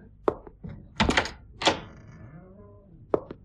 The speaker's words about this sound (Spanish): empujó la puerta sin llamar